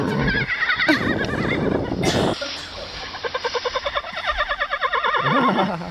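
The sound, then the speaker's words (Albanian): A loud horse neigh with a long, rapidly quavering whinny that runs for several seconds, after a shorter burst of broad, noisy sound. “Është hingëllima një kali”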